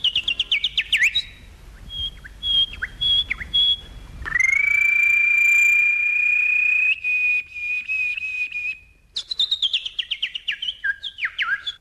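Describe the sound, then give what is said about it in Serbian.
Small birds chirp in quick, high, bright trills. A long, steady, high whistled tone holds through the middle before the rapid chirping returns, loud and without voices. “neka da crkuću, crkuću ptičice”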